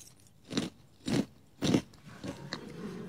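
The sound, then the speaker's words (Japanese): A crunchy snack eaten dry with a spoon like cornflakes: three loud, crisp bites about half a second apart, followed by quieter crackling chews. “こんなコーンフレークみたいな食べ方していいのかしら？ サクサクいってます。”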